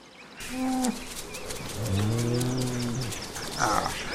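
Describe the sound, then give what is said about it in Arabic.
A buffalo herd lowing: a short moo, then a long, deep, drawn-out call, followed by a brief higher cry near the end over steady background noise. “وأخذ ينظر إلى قطيع الجاموس حتى وقع نظره على أحد الذكور الفتية القوية.”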